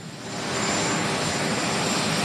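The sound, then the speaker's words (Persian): Marine One, the presidential helicopter, at Joint Base Andrews: a loud, steady turbine roar with a thin high whine on top, swelling in the first moments and then holding level. “تصاویر زنده رو میبینید از مارین وان، هلیکوپتر رئیس جمهور، که او رو به پایگاه مشترک اندروز آورده، جایی که او تا دقایقی دیگر راهی لس آنجلس خواهد شد.”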